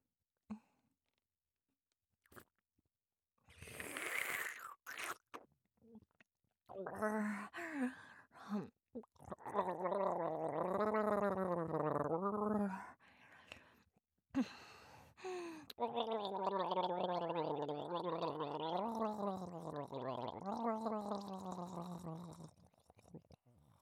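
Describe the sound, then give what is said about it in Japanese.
Someone drinking the rest of a drink, with long stretches of wet gulping and throaty, gargle-like swallowing that come in drawn-out bursts separated by short pauses. “残り全部飲んじゃっていいですかね。ありがとうございます。じゃあ飲みますね。”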